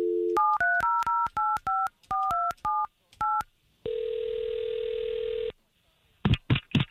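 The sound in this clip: A telephone number being dialled: a quick run of touch-tone beeps, each a short, clean double-pitched note, then a long, steady tone, then a few short bursts at the end.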